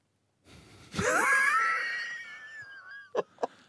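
Recorded heavy breathing played for a listener guessing contest: one long, wheezy breath with a whistling tone that slowly fades, followed by two short, sharp puffs, heard alone after silence.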